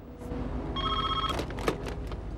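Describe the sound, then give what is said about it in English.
A telephone rings briefly for an incoming call placed from a smashed office phone. A single short, fairly faint electronic ring sits over a steady background noise, followed by a few soft clicks. “Later, as Audrey drives home in her car, Fletcher rings her from his smashed office phone.”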